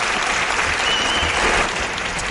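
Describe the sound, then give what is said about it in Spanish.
An audience applauds as a guest is introduced and welcomed. The clapping is sustained, dense and fairly loud, holding an even level from start to finish with no voices over it. “Un aplauso os pido para él.”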